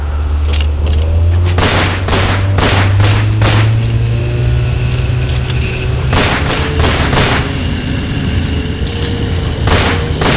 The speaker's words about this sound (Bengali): fire কর fire কর